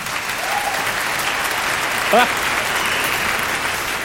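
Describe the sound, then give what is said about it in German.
Audience applause at the start of an orchestra show: steady, dense clapping from many hands at an even level, with a brief vocal sound rising out of it partway through. “Sehr freundlich. Oder ist das vielleicht ein Mitleidsapplaus?”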